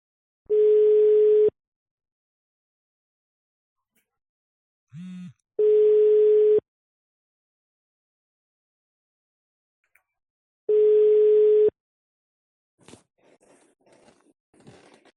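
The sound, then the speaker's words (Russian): A telephone ringback tone plays while a caller dials someone. Three steady, mid-pitched tones sound, each about a second long, separated by several seconds of silence. A brief click falls between the first two, and faint scraping noises follow at the end. “Сейчас еще раз наберу.”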